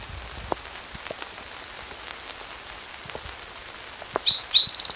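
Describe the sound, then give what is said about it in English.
Rain falling as a steady soft hiss with scattered taps of drops. A bird chirps a few times near the end. “It's raining now.”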